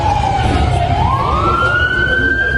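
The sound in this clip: An ambulance siren on a street in Eyüp Sultan, Istanbul, after an armed clash: a single loud wailing tone that dips slightly, then rises and holds at a higher pitch over a steady low rumble.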